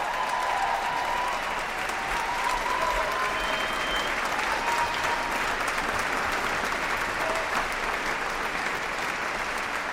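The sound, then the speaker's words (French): Wild, sustained applause from a concert audience at Victoria Hall in Geneva after a performance of Berio's Coro at the Festival Archipel. Dense, even clapping holds steady and loud for the whole stretch. “Nous quittons le public en délire, public du Victoria Hall qui a accueilli ce coro de Luciano Berio”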